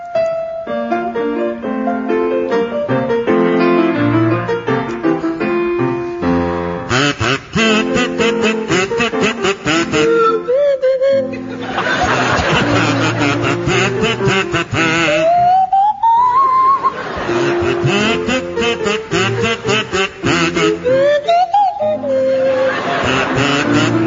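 Kazoo and swanee whistle playing a Gilbert and Sullivan song: a buzzy, nasal kazoo melody alternates with the swanee whistle's smooth sliding glides, both loud and continuous.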